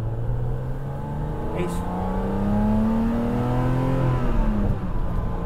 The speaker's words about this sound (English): That induction noise is mega. I mean, we've got to go easy on the old thing, so we're not winding it right out